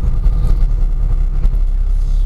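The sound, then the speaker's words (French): Steady low rumble inside a car creeping at walking pace along a motorway in falling snow; continuous engine and road drone with no distinct separate events. “je suis toujours dans ma voiture, il est 18h17, je ne suis toujours pas sorti de l'autoroute, il continue à neiger, je roule au pas.”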